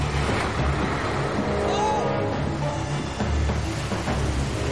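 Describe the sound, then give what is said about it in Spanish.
Engines rumble steadily as a large ferry docks and the vehicles aboard start up, a dense, continuous low drone with a constant wash of mechanical noise and no clear breaks. “un ferry de gran tamaño se acerca al embarcadero para realizar su atraque. Una rampa baja de modo automático poco a poco y varios vehículos encienden sus motores dentro del ferry para salir.”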